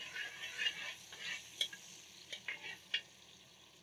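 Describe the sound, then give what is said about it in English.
Ginger sizzles in hot oil in a pan, giving a soft, continuous frying hiss. A few sharper spikes of stirring stand out above it, and the whole sound stays faint throughout. “I like to start off with a bit of ginger. I still give the oil a little perfume, a little flavor.”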